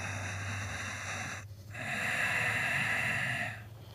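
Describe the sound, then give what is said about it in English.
Ujjayi yogic breathing through the nose, a hissing, snore-like rasp likened to a seashell, heard as two long, steady breaths with a brief pause between, moderately loud with no talking. “You can do an ujjayi breath when you do that. Ujjayi is a yogic term, which is when it sounds like a seashell. It's almost like you're snoring.”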